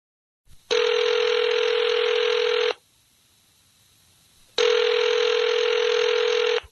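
A telephone rings in two long, loud electronic bursts separated by a pause of about two seconds, each ring a steady buzzing trill with no voices.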